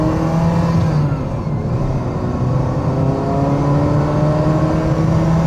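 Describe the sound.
Engine of a 35-year-old Ferrari Mondial T while driving: a loud, continuous, rich drone with strong harmonics, holding steady and then edging slightly upward in pitch as the car rolls on.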